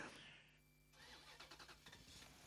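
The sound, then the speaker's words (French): A Renault 4L car engine starts: a steady starter whine gives way to a rapid, regular pulsing as the engine catches and runs. “Eh ben oui, je démarre. On y va, on prend la 4L et c'est parti, on le suit tout de suite.”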